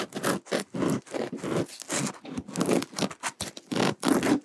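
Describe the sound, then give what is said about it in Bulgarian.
A knife saws through a loaf of bread in many rough, rasping strokes. The back-and-forth rhythm is steady, and each gritty scrape stands alone and fairly loud. “Разрежи ни хляба, моля”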